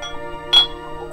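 A single bright glassy clink sounds as the lid of a glass pickling jar is opened. It is brief and sharp over soft, steady tones.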